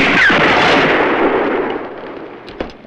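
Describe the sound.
Winchester rifle shots fired into an armor breastplate: a loud blast opens with a long, decaying rumble, followed near the end by a shorter, sharp crack.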